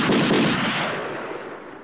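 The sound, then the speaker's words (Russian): Gunfire less than a verst away during a fight against rebel musketeers near the Kremlin gates: a loud, dense volley of overlapping shots that rolls on and gradually fades. “Менее чем в версте раздались выстрелы.”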